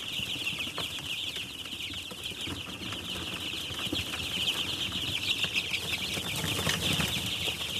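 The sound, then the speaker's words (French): Week-old chicks peep together in a dense, constant, high-pitched chorus, a steady massed chatter at moderate loudness. “Ça, c'était poussin. Voilà. C'est les poussins qui ont une semaine.”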